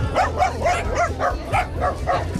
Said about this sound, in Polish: Bardzo fajnie, bardzo dużo piesków właśnie, przeróżnych umaszczeń.